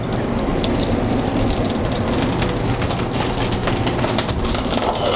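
Food browning in butter in a pan gives off a continuous, dense sizzle and crackle, steady in level throughout, with no talk over it.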